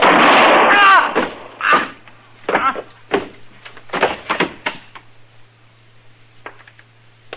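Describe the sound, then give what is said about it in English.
A gunshot rings out in a western radio drama as one loud, booming blast that fades over about a second. A string of softer knocks and thuds follows at irregular intervals. “He won't have to stand trial. He's not dead, Chester. I aimed high on him.”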